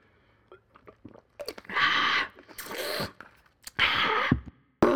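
Wet mouth sounds of someone drinking Wegmans store-brand kombucha, a tart, vinegary drink, in a mukbang ASMR style: a few loud gulping, slurping bursts separated by small clicks and smacks, with no talking.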